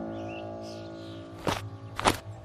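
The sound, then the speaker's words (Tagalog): Two heavy footsteps thump on the wooden floor of a house as someone runs, heard over a steady low droning background. “Habang papasok kami sa loob, ay may narinig kaming yabag na parang may kumaripas ng takbo. Dinig na dinig namin ni Lola ang mga yabag nito sa sahig.”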